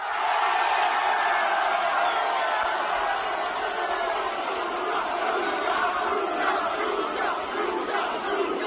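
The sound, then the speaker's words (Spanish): A stadium crowd in Milan roars and cheers at a football player's presentation, a loud, dense wall of shouting and chanting voices that stays steady and unbroken for the whole stretch. “este sonido llega desde Milán y es una locura. Es la presentación de Luka Modric con el Milán.”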